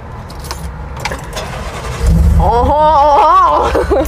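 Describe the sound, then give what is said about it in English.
A Ford Bronco starts off for a drive. Light rattling gives way partway through to a sudden, steady low engine rumble that stays loud to the end. “so I'm gonna take the Bronco for a little spin on my own”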